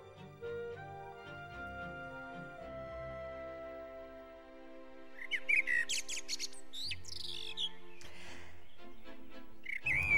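A canary whistles songs loudly, with bursts of quick chirps and warbling trills over sustained, steady musical tones.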